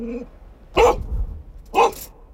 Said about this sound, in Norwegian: Om hunden er funn, markerer hun ved å bjeffe mot der lukten kommer fra.